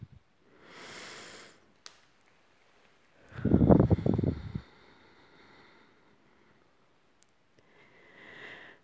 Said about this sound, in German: Nimm ein paar tiefe Atemzüge.